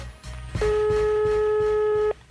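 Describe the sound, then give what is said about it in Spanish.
A telephone call being placed produces a steady electronic line tone lasting about a second and a half, with low background noise before and after. “Mira, aquí estamos marcando. Ahí estamos. ¡Guan llamada! Espero que me lo coja rápido.”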